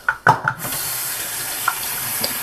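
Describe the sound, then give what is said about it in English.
Warm water runs from a faucet with both taps turned on into a sink. A few quick knocks and splashes come first, then a loud, steady hiss of flowing water continues to the end. “So I'm going to turn on both sides of my faucet.”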